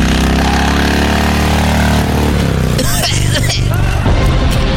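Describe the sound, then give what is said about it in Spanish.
A motorcycle engine roars through a tunnel laid with rails: a loud, steady, buzzing drone that shifts lower partway through, with rougher bursts of noise toward the end. “¿Por aquí va a pasar esa moto? ¡Ábrase, viejo!”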